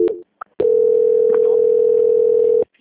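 A telephone line tone plays while a call is transferred: a short beep, then one long, steady, unbroken mid-pitched tone that holds at even loudness for about two seconds and stops abruptly.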